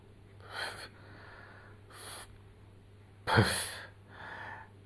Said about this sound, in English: I have to breathe here because I'm really